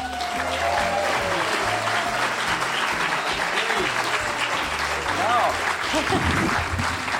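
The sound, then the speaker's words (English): Enthusiastic applause from an audience at London's Leicester Square Theatre, a dense, steady wash of clapping that runs the whole time, with a voice speaking over it. “So here we go with an enthusiastic audience in London's Leicester Square Theatre exploring the seven wonders of Sooz Kempner.”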